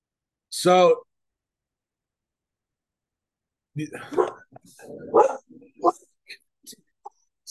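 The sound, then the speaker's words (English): A dog gives one short, loud, harmonic bark, followed after a pause by a run of quieter, uneven vocal sounds. “My dog and your dog barking on that shit.”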